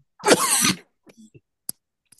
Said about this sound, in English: I'll just have a coughing fit first, then I'll talk to you.